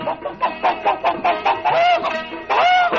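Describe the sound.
Rooster calls in a village: a quick run of short, bright harmonic clucks, then a couple of longer drawn-out calls, loud and with no talk.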